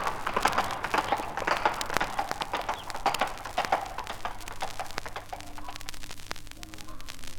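Horses' hooves gallop as a queen and her page ride into the forest. A fast, rhythmic run of sharp clattering beats eases slightly in the final seconds.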